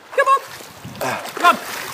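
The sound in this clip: Splashing water as a dog swims in a stream, in a few short bursts of splatter with a voice briefly heard between them.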